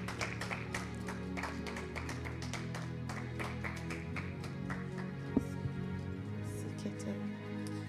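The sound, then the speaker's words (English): An audience claps hands during a church service, sharp claps repeating in a steady rhythm over a continuous bed of instrumental music. “Somebody clap your hands unto the Lord.”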